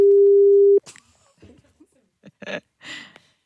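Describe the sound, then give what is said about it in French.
A telephone line tone sounds while a call is placed: one steady, loud, pure tone lasting under a second, then a few short, scattered bursts of voice. “Et donc on appelle du côté de Bénezet, en province de Liège.”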